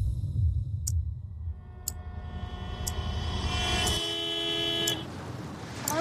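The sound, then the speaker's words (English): A car horn sounds in a film scene where a solo mum's car is held up at a green light by a four-wheel drive. A sustained, harmonic honk builds over low engine rumble, with a brief shouted voice and a few sharp ticks. “honks angrily and takes off”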